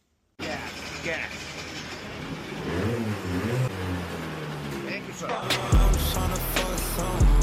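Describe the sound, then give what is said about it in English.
A go-kart engine drives along a Tokyo street, revving loudly with rising and falling pitch and a continuous mechanical drone under voices. “Nothing like riding on the street in a go-kart looking at Tokyo Tower.”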